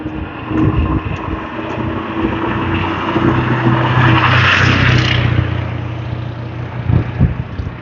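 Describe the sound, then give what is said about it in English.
A single pickup truck drives past in a steady, loud roar of engine and tires over a low rumbling drone, swelling to a peak midway and then easing off. “That noise was just a single pickup truck. Just one.”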